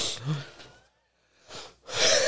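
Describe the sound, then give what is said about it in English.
A person wheezes from laughing too much: a few raspy, breathy gasps separated by a short silence, ending on a stronger hissing breath. “I told you, I'm wheezing over here.”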